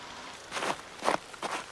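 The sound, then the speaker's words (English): Footsteps of a female emperor penguin treading cautiously across ice on clawed feet: three soft crunching steps at an even pace, faint and alone. “A female emperor penguin treads cautiously across the ice on its clawed feet. It walks with a small colony of females.”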